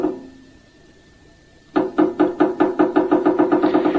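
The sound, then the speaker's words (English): A beetle taps out a rhythm in a long series of sharp, dry knocks that begins after a quiet stretch. The knocks get quicker and form an insistent, regular pattern. “And is this a different beetle? It's a different species. Different species. But listen to this one.”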